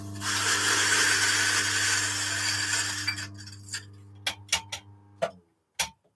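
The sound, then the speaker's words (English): Electric coffee grinder grinding beans: a steady, dense whirring hum runs for about three seconds and trails off, followed by a series of sharp, separated clicks and taps. “The Elite Bianca is a fantastic machine. Let me grind this.”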